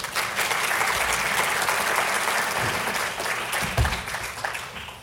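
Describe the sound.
Audience applause welcoming an opera singer onto the stage at a recital series, a full, sustained round of clapping that stays steady, with a couple of low thumps near the end.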